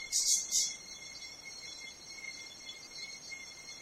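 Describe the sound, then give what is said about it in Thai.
Birds and cicadas at dawn: two bright bird chirps open, then a steady high insect trill carries on alone, quiet and even. “ช่วงนี้เราจะมีเสียงเล็กๆน้อยๆจากธรรมชาติอย่างเช่นนกหรือว่าเสียงจักรจันทร์”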